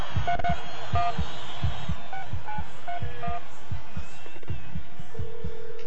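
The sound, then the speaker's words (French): Telephone keypad tones open a song: a series of short beeps at different pitches over a steady thumping beat, ending in a sustained low tone. “C'est un téléphone, ça, j'ai reconnu.”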